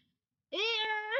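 A cat gives one clear, sustained meow after a brief silence, its tone holding steady and lifting slightly at the end.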